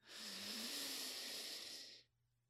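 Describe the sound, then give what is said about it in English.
One deep, slow breath through the nose during a guided relaxation exercise, heard alone as a single long, airy hiss that lasts about two seconds and then stops. “Take one big inhale in and exhale out into the nose, deep into the belly,”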